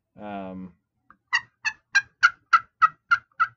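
Sharp turkey clucks made on a call for spring turkey hunting: after a short voiced sound, eight crisp, evenly spaced clucks follow in a steady rhythm, each bright, clipped and moderately loud.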